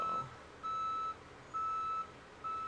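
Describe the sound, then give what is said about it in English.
Reversing beeps from a bulldozer-style machine: a high, steady electronic tone that repeats in evenly spaced pulses of about half a second with short gaps between them, over a low, constant engine rumble. “it's not a truck. It's, like... I could try to point it out the window. It's like a bulldozer-style thing.”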